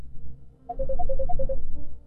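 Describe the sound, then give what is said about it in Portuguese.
A WhatsApp ringtone sounds for an incoming call in a radio studio: a quick melodic run of short, bright beeps over a low background rumble. “Tem pessoas que estão ligando aqui no WhatsApp da rádio. A gente não consegue atender.”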